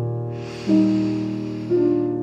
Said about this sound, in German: Und nimm mal einen tiefen Atemzug durch die Nase ein